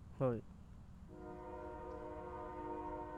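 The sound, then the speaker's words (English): A train horn sounds one long, steady, sustained blast that starts after a brief opening sound and holds unbroken to the end, fairly faint overall. “Yeah, that's a fucking train, bro. Yeah, that's a train.”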